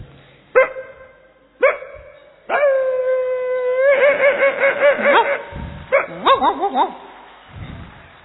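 A thin little street dog barks, throwing its weight around: two sharp, separate barks, then a long held whining howl, followed by a fast run of high yipping barks and a few more yelps before it fades.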